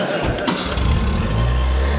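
A car engine starts and runs as a steady low rumble through the whole clip, fairly loud, with a few brief sharper bursts near the beginning.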